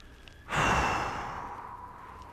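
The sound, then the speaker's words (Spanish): A single deep breath from a guided breathing exercise of inhaling through the nose and exhaling through the mouth: a sudden, loud rush of air that starts sharply and slowly tapers off over about two seconds. “Inhala nariz, exhala boca, cierra tus ojos.”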